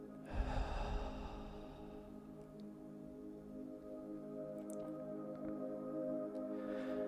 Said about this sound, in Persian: یک نفس عمیق با هم میکشیم دم و باز دم